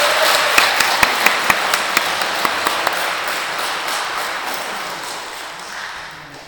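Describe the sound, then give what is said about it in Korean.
Congregation applause at a church service for guests visiting from abroad, a dense patter of clapping with a few sharp claps early on, then slowly fading toward the end. “멀리서 오셨는데 제일 큰 박수 좀 부탁드립니다.”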